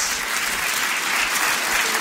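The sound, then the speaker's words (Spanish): Applause from a church audience during a worship service, a dense, steady clatter of clapping that stays loud and even across the short stretch, with no talk. “Así que denle un aplauso al Rey de Gloria.”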